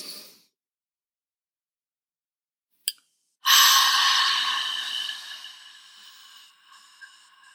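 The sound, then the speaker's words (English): A deep inhale during a guided breathing exercise: after a short click, a long, breathy rush of air starts loud and fades gradually over about four seconds. “We're going to inhale in.”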